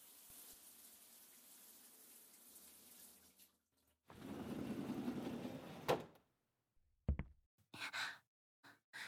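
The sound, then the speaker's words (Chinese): Water runs in a shower with a soft, steady hiss, faint at first and then louder, before it stops. A few short thumps and bumps follow. “我去洗澡了。”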